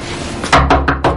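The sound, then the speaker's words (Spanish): Four quick, loud knocks and rattles come from a boy trying to open the door of his former home off a hallway. The blows fall in a fast, fairly even series and are sharper than the faint background noise. “Al poco, avanza por un pasillo e intenta abrir la puerta de su antigua casa.”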